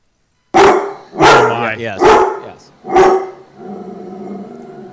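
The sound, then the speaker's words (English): Angry guard dog barking: four loud, harsh barks in quick succession, followed by a lower, rumbling sustained sound, with brief talk from people. “Do you want to hear a Doberman or a Rottweiler? Rottweiler will be low. Doberman, maybe. Okay, let's hear if it's as angry as I think it's going to be.”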